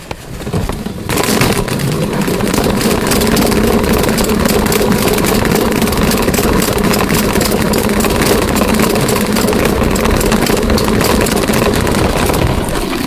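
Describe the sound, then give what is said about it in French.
A salad spinner drying lettuce whirs as it is spun, a steady, continuous rotating drone that starts after a brief moment and holds at an even loudness to the end. “Voilà, le truc pour essorer la salade. Alors ça c'est bien. Je vais le faire tourner.”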